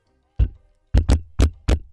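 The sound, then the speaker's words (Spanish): Coded knocking on a door: five sharp raps, a single knock, a pause, then a quick pair followed by two more evenly spaced knocks, with silence in between. “Seguramente habría esos códigos que hemos visto en varias películas que son, es un código de golpes en la puerta.”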